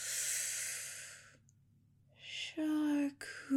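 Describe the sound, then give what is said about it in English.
Deep breathing during a relaxation exercise: a long, airy breath lasting over a second, a pause of near silence, then another breath that ends in a brief voiced tone. “Let's inhale through the nose. And exhale through the mouth. One more time. In through the nose.”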